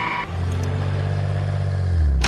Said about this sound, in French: Tu es sous, je vais te ramener. Monte dans la voiture.